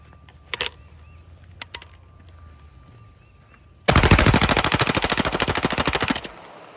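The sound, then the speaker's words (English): Gunfire aimed at beer cans: a few sharp isolated cracks come first, then a loud, sustained burst of rapid automatic fire rattles on for over two seconds before stopping abruptly. “Okay, we're shooting at beer cans.”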